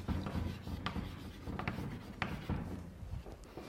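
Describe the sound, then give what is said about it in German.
Writing on a board during a maths lecture: continuous dry scratching strokes with several sharper taps, fairly quiet and without speech. “Okay, da schreibe ich nicht hin, was das bedeutet. Ach doch, schreibe ich doch hin.”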